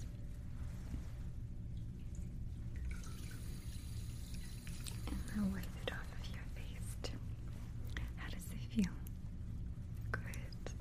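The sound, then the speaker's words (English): Water runs and drips at a sink as hands are washed, a soft, low-level splashing and trickle with a brief steadier rush of water, under quiet whispered voices. “Something to wash my hands.”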